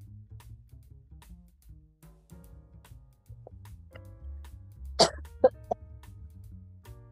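A person clearing the throat in a few short, sharp bursts close together near the end, following a quiet stretch over a low steady hum.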